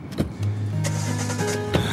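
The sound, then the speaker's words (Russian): A taxi car setting off toward town gives a low, steady motor hum and whine, broken by a few brief clunks, with no talking. “Они садятся в такси и едут в город.”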